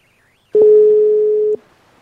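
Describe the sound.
A telephone ringing tone sounds while a call is placed: a single steady, mid-pitched electronic tone lasting about one second after a brief quiet stretch, then cutting off.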